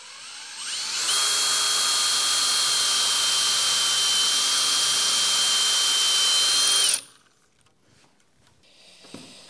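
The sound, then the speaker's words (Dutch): A power drill bores about 55 mm deep into a spindle of an old wooden chair, whining steadily and loudly for about six seconds before stopping abruptly, followed by faint handling noises. “dus ik heb ongeveer 55 mm diep geboord. Ah, dan zit ik hier een aardig eind in de spijl.”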